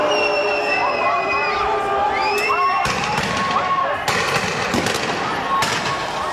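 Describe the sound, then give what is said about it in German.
A riot after a demonstration in Geneva in June 2003, with police using water cannons, rubber bullets and tear gas: a loud, continuous roar of crowd shouting and whistling, broken by several sharp bangs. “in Genf wüten nach einer Demonstration Chaotinnen und Chaoten und Vandalen. Die Polizei schreitet mit Wasserwerfern, Gummigeschossen und Tränengas ein.”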